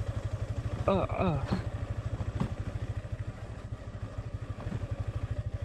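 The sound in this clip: Motorcycle engine while riding, recorded on a helmet-mounted GoPro Hero 7 action camera; a loud, steady, rapid pulsing engine throb runs through the whole clip with no talk.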